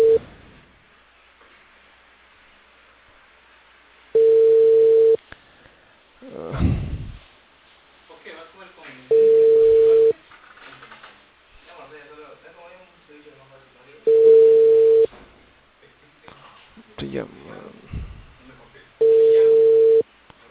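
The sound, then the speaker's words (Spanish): Ringing tone of an unanswered call placed from a landline: a steady mid-pitched tone in four bursts of about a second each, spaced roughly five seconds apart, with a person talking in the gaps. “Estoy llamando de un fijo, señor, ¿por qué no contesta?”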